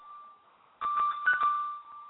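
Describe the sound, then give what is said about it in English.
A MyTouch mobile phone rings: a steady electronic tone, then a louder burst of ringing with bright tonal chirps that carries on to the end. “As I am reading from my MyTouch, my phone rings.”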